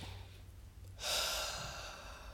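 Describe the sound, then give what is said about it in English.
A single deep breath taken alone in a quiet space: a long, soft rush of air that begins suddenly and then slowly fades away. “a really good breath. I'm gonna take another.”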